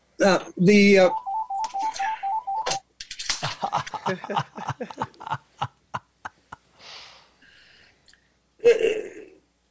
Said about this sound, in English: I'm sorry, my phone's ringing.